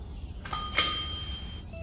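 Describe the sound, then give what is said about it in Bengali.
A doorbell rings as a bright, chiming tone. It starts with one strike, then a sharper second strike, then rings steadily before stopping. “পরদিন সকালে ডোরবেলের তারস্বরে চিৎকারে ঘুম ভাঙলো”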